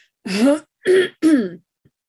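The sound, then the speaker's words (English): Three throat-clearing coughs in quick succession, each a short, rough, voiced burst of moderate loudness, separated by brief pauses and followed by silence. “I apologize for all this coughing, but I'm doing this early in the morning.”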